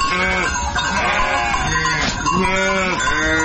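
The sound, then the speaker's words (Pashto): A flock of hundreds of sheep in the Bagh Yatar desert of Ghazni's Qarabagh district, during a drought, heard as many loud bleats that overlap continuously, some high and wavering, with no talking. “شاوخوا دېرش کلن شایسته خان کوچی د غزنی قرهباغ ولسوالۍ په باغ یاتر دښته کې د سلګونو پسونو رمه پیایي.”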